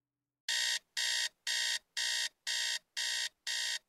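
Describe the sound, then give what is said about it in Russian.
Alarm clock ringing loudly and insistently in seven regular bursts of bright, harsh metallic ringing, each separated by a short gap, with no voices. “Истошный звон будильника заставил подняться с постели.”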